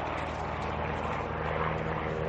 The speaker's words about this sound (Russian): Описав дугу, над склоном пролетает легкий самолет.